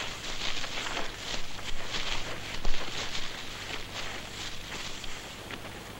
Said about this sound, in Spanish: Los hombres de color se acercan corriendo. El capitán y sus hombres salen de los matorrales.